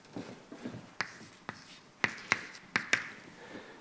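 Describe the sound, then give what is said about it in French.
Hand-writing of a result during a physics lecture: sharp taps and short scratches of the writing tool at irregular intervals, crisp but faint, with no talk over them. “Je vais vous écrire le résultat.”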